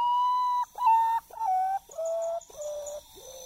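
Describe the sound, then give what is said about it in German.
Common potoo call: six mournful, whistled notes, each held for about half a second with brief gaps between them. Every note sits a little lower in pitch than the one before, so the series steps steadily downward, loud and alone. “Das ist die Stimme des Urutau-Tagschläfers.”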